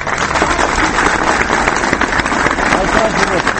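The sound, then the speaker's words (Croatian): Supporters applauding in central Belgrade after carrying boxes of more than 300,000 signatures to the parliament steps, a loud, continuous rush of clapping with crowd noise that stays dense and level throughout. “Aplauz pristalica koje su centrom Beograda pronele kutije sa potpisima više od 300.000 ljudi.”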